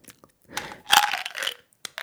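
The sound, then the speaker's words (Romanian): Crunching and chewing of sugar-free, peach-flavoured mint candies, heard as a few short, dry, crackly bursts of moderate loudness separated by brief quiet gaps. “Am mănânc niște bomboane cu vitamina... Uh, um, bomboane de mentă fără zahăr, gust de piersică.”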